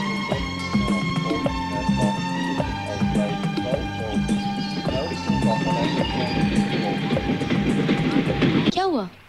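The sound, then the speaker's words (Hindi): A train approaches: a steady rumble with rhythmic clattering and sustained tones that fills the whole clip, then cuts off abruptly at the end. “Train आ रही है।”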